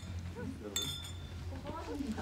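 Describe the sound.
Glasses clinking in a toast, one bright, brief chink with a thin ringing tail, heard under ongoing talk.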